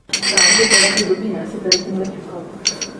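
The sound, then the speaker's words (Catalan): Glasses clinking together in a toast between friends: a cluster of bright, ringing clinks close together, then a couple of later, softer clinks after brief pauses. “això eren unes copes, jo vaig dir que era com un cambrer recollint les copes així amb la mà. Era un brindis entre amics.”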